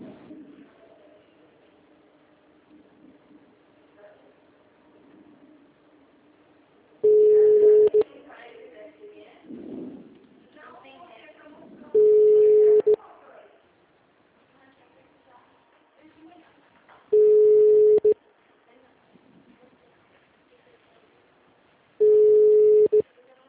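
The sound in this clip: Telephone signal tones on an automated call line: four long, steady, mid-pitched beeps at even intervals, with a low murmur of faint sound between them.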